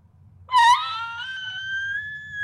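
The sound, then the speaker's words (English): A human voice imitates a high-pitched screech from a creature overhead in a fantasy tabletop role-playing game. A single wailing cry bursts out loudest at first, then holds steady and thin for about two seconds over a faint low hum. “I can't do it very well, but a high pitch like screeching sound above you.”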